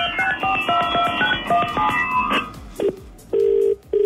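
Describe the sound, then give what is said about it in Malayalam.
Telephone tones on an outgoing call: a quick electronic melody of many short notes, then a few brief beeps and two steady, loud tones near the end. “നമ്മളുടെ സ്വന്തം ഫോണിലൊന്ന് വിളിച്ചോക്കാം.”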